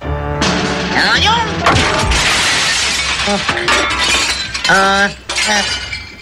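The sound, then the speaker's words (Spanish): A camera breaking amid shattering glass: a loud, sustained crash with bright, scattering glass fragments and crackling debris, with vocal sounds over parts of it. “¿Dijo romper la regla o romper la cámara?”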